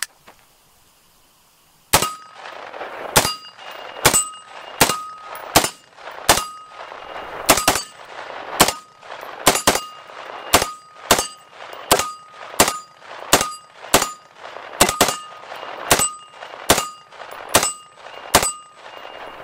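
A 9mm submachine gun is fired while spent shells strike a shell deflector. Many sharp, ringing metallic clangs repeat at a steady, roughly one-per-second pace after a brief quiet start.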